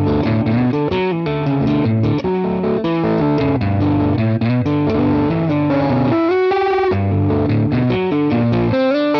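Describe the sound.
An electric guitar plays its main riff through a boost pedal into an AC30 amp: a loud, gritty, distorted run of chords and notes that keeps a steady driving rhythm throughout, with no voices.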